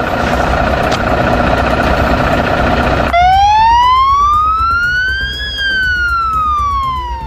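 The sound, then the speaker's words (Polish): Police and fire vehicle sirens sounding together at noon in tribute during a police officer's funeral. A loud, dense roar of overlapping sirens gives way to a single wail that rises slowly in pitch, then falls. “policjanci i strażacy w całym kraju włączyli sygnały dźwiękowe i świetlne w swoich samochodach.”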